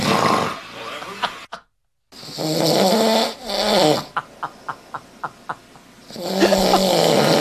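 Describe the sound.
A recording of a man snoring has long, loud, rasping breaths. Between them comes a run of about six short, sharp snorts at an even pace, then another heavy, rough breath.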